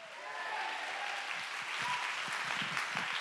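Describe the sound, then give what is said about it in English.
Congregation clapping hands during a church sermon, a dense, steady wash of applause that holds at an even level for about three seconds. “Come on, Saint of God, clap your hands and give him praise.”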